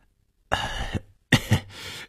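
An awkward cough from an old man, two short rough bursts of coughing with throat clearing, moderately loud and alone, separated by a brief pause.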